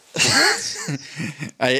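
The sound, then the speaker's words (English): A voice mimics a fake cough under the breath, a few short muffled cough-like bursts that are voiced and mixed with breathy sound, fairly loud. “And I did like that sort of like cough, cough. And then I said COVID. And I was like, no. I was doing that cough under your breath,”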